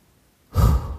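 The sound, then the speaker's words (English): A single deep inhaled breath during a guided eyes-closed relaxation exercise, a breathy rush of air that begins after a brief silence, holds for about half a second and eases off slightly, with no talk over it. “Close your eyes and take a deep breath in.”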